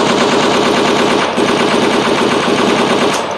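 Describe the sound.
Loud, rapid gunfire rattles without pause, one sustained automatic burst running from start to finish with no voices over it.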